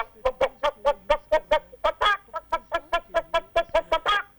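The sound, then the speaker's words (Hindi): A man's voice imitates a hen clucking, with many short, rapid, evenly spaced clucks in a steady rhythm and a few louder, harsher squawks mixed in. “मैं एक मुर्गी की आवाज निकालता हूँ, मुर्गी की जी जी, वो कैसे बोलती है जी”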